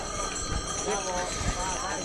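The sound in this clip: Horse-drawn Spatenbräu brewery wagons pass at Oktoberfest on a Monday morning. Hooves clip-clop in an uneven rhythm beneath nearby talking voices.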